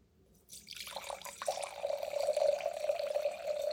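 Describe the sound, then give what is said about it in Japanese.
Red Piedmont wine poured into a glass: after a brief silence, a quiet trickle grows into a steady, gently gurgling stream of liquid that runs to the end, with no voices. “そのトリンケーロさんのワインをじゃあそうですね注いでいただきますかね”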